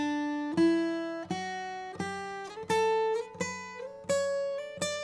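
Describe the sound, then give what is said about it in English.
A major scale plucked clawhammer style, do up to do, eight clear single notes climbing steadily in pitch at an even pace, each ringing bright and sustained before the next attack. “that's your basic major scale, do, re, mi, fa, sol, la, ti, do, and I'm gonna go ahead and play it all together”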